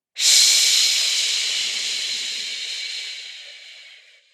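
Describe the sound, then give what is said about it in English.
One long, slow inhale during a guided breathing exercise, an airy hiss that starts abruptly and fades gradually over about four seconds. “Breathe in, two, three, four, and”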